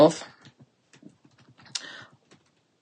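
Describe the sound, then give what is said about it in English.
Typing on a computer keyboard: a few quick, irregular, fairly faint key taps, with a brief bit of talk at the start. “Let me type, because I want to see when it was written.”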